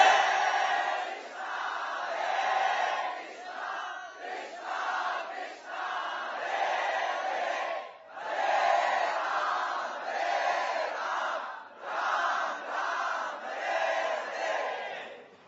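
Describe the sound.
Group chanting of Krishna's holy name at a devotional gathering: many voices sing in unison in a steady run of loud, sustained phrases, each separated by a brief pause, with no solo speech on top.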